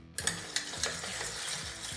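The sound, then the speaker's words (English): Ice clinking against a glass as an iced drink is stirred, with a few faint, sharp clinks over a soft, steady swirl. “We're going to give it a nice stir. Get that stuff nice and ice cold.”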